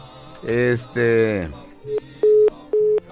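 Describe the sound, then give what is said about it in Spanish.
A telephone line's tones sound after a caller's call drops, with a few short, steady, evenly pitched beeps following a brief voice. “Ándale, se le cortó la llamada, parece,”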